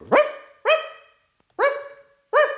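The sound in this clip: A person imitates a dog barking with four loud, harsh barks separated by short gaps, with nothing else sounding around them.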